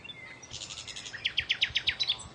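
Bird song from a male claiming its territory: a brief warbling phrase, then a rapid series of sharp, high, evenly spaced repeated notes, clear and fairly loud, with no voices.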